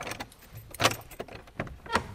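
Keys jangle and click in a lock as the door of a small village church in Röcken is unlocked on a mild autumn day, giving a few faint, sharp metallic clinks over a low background hum.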